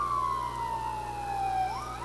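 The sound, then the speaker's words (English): A fire truck siren wails as several fire trucks gather: one long tone glides slowly downward, then turns upward near the end, above a steady low rumble. “Another fire truck. Several fire trucks here in Dimmitt.”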